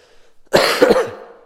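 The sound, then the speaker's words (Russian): A harsh cough from a speaker at a seminar who is recovering from illness: one loud, sudden burst with a rough second push and a fading rasp, after near silence. “Вы меня простите, я кашлять, наверное, буду больше, чем Александр.”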